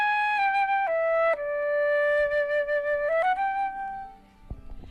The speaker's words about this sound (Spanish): Ahí está, la flauta travesera, ¿no? Que suena así, preciosa,